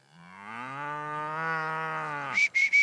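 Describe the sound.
Cattle on a farm, a bull and an old cow, with one long, loud, low moo that holds a steady pitch rich in harmonics, then a few short, higher-pitched bursts at the end.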